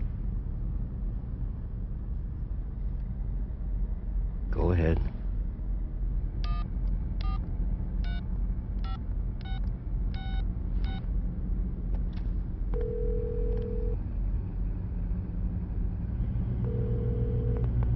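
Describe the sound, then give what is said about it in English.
Touch-tone beeps as a telephone number is dialed: a quick run of short, evenly spaced electronic tones over a steady low rumble, followed later by a couple of longer steady tones. “Call me. Dial your number.”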